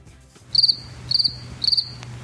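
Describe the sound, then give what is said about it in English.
Crickets chirp in three evenly spaced, high-pitched trills of rapid pulses, with a faint steady low hum beneath and no voices. “I don't know if we're getting the sound. It's supposed to be the sound of crickets.”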